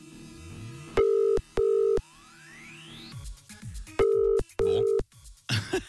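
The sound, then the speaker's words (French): Ringing line tone of an unanswered telephone call: four steady beeps in two paired bursts separated by a pause, with faint line noise and clicks in between. “Allô, allô? Je sens que nous allons tomber sur le répondeur, je ne sais pas pourquoi.”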